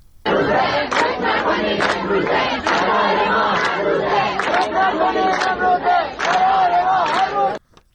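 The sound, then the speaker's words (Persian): Students chant a protest slogan at Razi University in Kermanshah, many voices shouting in a loud, rhythmic unison phrase repeated over several seconds before cutting off abruptly near the end. “یکی از شعارهای دانشجویان در دانشگاه رازی کرمانشاه را می‌شنوید.”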